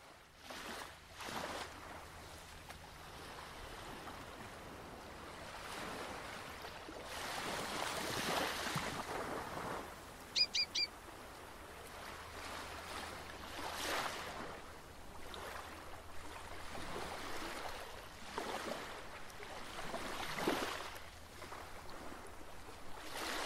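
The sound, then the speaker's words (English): Ocean waves wash in slow, broad swells as wind blows gently. The sound is faint and soft, rising and falling without any voices. “the sound of waves. The wind gently blowing.”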